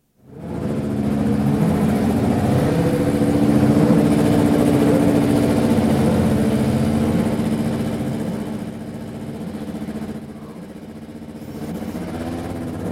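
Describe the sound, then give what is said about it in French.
A Renault Formula 1 qualifying engine runs steadily while being tuned, its oil near 100 degrees and still cold. A dense, even mechanical drone holds throughout with no clear revving, easing slightly in level toward the end. “Mise au point d'un moteur de qualification Renault. Température d'huile aux alentours de 100 degrés,”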